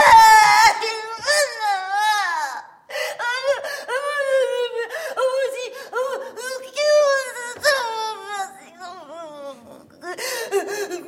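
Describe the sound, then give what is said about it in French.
A woman sobs and cries theatrically in a staging of Molière's Le Malade imaginaire, her wailing broken into many short gasping bursts that swoop up and down in pitch, with brief pauses between them. “Si vous avez le plaisir de quereller, il faut bien que de mon côté, j'ai le plaisir de pleurer.”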